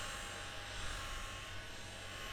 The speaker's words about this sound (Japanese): それじゃあ乾かしていくわね。熱くない？